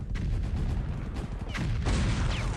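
Machine gun fire during a battle with tanks, a dense, continuous roar of rapid firing and rumbling blasts that stays loud without pause.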